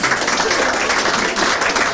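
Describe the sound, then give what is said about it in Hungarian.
A crowd applauds, a dense and steady clapping that holds at an even loudness for the whole stretch with no pause. “Megvárom a tapsot, kultúrált ember vagyok.”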